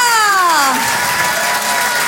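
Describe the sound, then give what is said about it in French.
Audience applause and cheering greeting a comedian at a stand-up show, with a voice calling out in falling pitch at the start over steady, lively clapping that continues to the end. “Je vous demande de l'encourager très chaleureusement, s'il vous plaît, faites du bruit pour Nathalie Boitel.”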